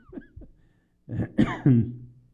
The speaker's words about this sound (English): excuse me, I don't have a cough button, but that's why I still have a cough.